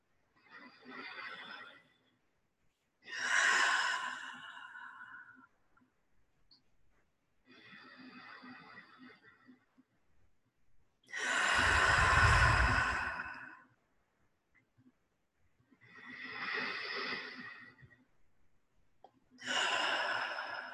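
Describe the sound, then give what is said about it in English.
Three slow, deep breaths taken to open a prayer, each drawn in through the nose and let out through the mouth, making six soft rushes of air separated by silence, with one exhale louder and heavier than the rest. “Let's open in prayer, taking three deep breaths in the nose and out the mouth.”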